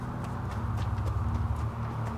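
Hooves of a horse carrying an approaching rider clip-clop in a steady, loud rhythm over a low rumbling bed, with no voices.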